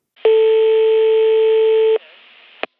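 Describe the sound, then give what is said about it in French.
A telephone line tone sounds as someone prepares to call ahead to say they are arriving. It is one steady, loud, buzzy tone lasting under two seconds, followed by silence and a brief sharp click. “Je vais appeler Walid pour le prévenir qu'on arrive.”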